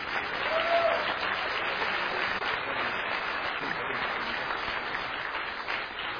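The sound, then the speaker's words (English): Audience applause welcoming a speaker: dense, even clapping that holds at a steady level for about six seconds, with no talk over it. “Would you give Brother Derek Stinnett a hand of welcome?”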